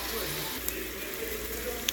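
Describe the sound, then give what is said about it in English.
Garlic stewing in a pan makes a steady, faint sizzling hiss throughout, broken by a couple of tiny pops. “Garlic. I got more too. Yum. I'll just let it stew.”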